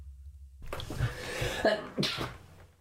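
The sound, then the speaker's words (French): A deliberate human sneeze: a breathy build-up followed by sharp, explosive bursts of noise, heard alone at moderate loudness and trailing off into a soft exhale. “Et je vais éternuer pour le bien de la chanson,”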